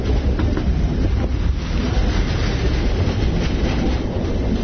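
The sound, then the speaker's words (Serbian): A train rolls along a railway line as it descends a hill cut through with many tunnels, making a loud, continuous rumble and rattle with rushing wind noise and no talk. “Putujemo prugom, spuštajući se nadole sa tog brda na kome smo bili i kroz koje je prokopano toliko mnogo tunela.”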